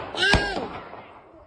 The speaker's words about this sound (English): Oh my god! Oh! He fucking shot her!